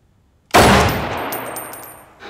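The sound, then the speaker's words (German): A heavy gun fires a single loud shot with a sharp, sudden crack. A long, fading tail follows, with faint high-pitched ringing. “So, jetzt schießen Sie mal. Einfach so? Einfach so.”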